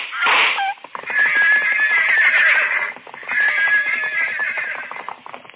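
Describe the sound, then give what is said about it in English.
Pack horses neighing at a gunshot: a loud opening burst followed by two long, shrill, wavering whinnies, each lasting about two seconds, separated by a brief dip. “The pack horses reared at the shot.”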